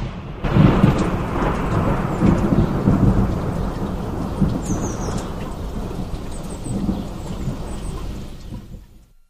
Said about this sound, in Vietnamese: Thỉnh thoảng một ánh chớp chiếu sáng chân trời, có thể tưởng chừng như cái chân trời ấy vội vã chạy trốn cho xa tiếng ồn ào gầm rít của cơn giông.